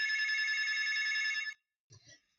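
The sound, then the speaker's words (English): A telephone rings in an office as one long electronic trill, then stops abruptly, followed by a brief faint voice. “I know my phone is ringing, so it's in my office. I'll just let it go into message machine.”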